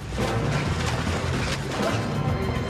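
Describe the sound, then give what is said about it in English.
A loud, dense smash as two men fighting crash backwards through a window, the crashing noise filling the whole stretch without letting up. “Bob butts Dimitri in the belly and they fall backwards through a window.”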